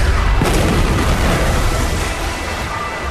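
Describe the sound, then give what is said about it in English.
Sci-fi ray gun shooting, a loud, roaring blast of harsh noise that holds steady and eases slightly toward the end. “Oh my God, what the hell is that? What? Oh no, they're shooting some kind of ray gun at us,”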